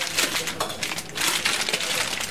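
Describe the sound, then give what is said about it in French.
Packaging rustles and crinkles as products are unpacked in a cheese shop, making a dense, continuous crackle dotted with small clicks and taps. “Et bien là, je déballe un certain nombre de produits parce que le fromage, c'est un produit vivant.”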